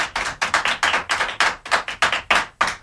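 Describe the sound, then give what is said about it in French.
Children applaud with many sharp, crisp hand claps in quick, uneven bursts, loud and steady for the whole stretch with no voices over them. “Voilà, les enfants vous applaudissent.”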